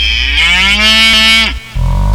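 A cow moos at milking time in one long, loud, drawn-out call that dips in pitch at its end. After a short break, a low rumbling sound begins.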